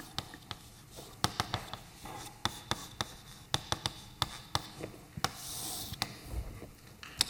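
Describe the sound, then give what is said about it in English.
Handwriting as a general procedure is written down: many sharp, irregular taps and short scratches from the writing tool, moderately loud and alone, with no voices. “So I will write down the general procedure, but in this example, the problem is the following.”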